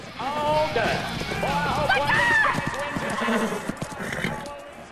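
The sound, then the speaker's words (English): Horse hooves clopping on the ground as the horse slows and comes to a stop, with voices and other vocal sounds heard over the hoofbeats. “Katie raises her hands up in front of Flicker. The horse slows down and stops in front of her.”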